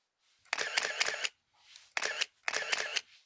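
A camera shutter fires in faint, rapid bursts while photos are taken, forming a few quick clusters of clicks separated by short pauses.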